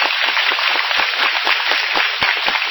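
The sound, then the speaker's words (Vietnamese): Audience applause at a Buddhist retreat, a dense, steady clatter of many hands clapping that stays loud for about three seconds, with a few sharper individual claps standing out. “Rồi cho ông một tràng pháo tay.”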